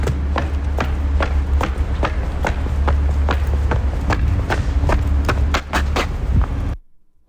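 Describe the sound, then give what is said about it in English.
Football boots clack down a pavement race onto the field, giving many sharp, evenly paced footsteps over a low rumble before they stop just before the end. “That is boots on pavement coming down the race onto the field.”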